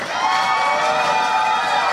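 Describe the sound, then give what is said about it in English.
A crowd at a poetry slam cheers and whoops in a loud, continuous burst, with bright sustained shouting voices blending into one wash of sound that stays at full strength throughout. “I want to give them all a massive round of applause”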